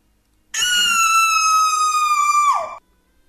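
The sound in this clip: A woman's single high, sustained scream holds a steady pitch for about two seconds, then drops sharply as it breaks off; no other voices are heard.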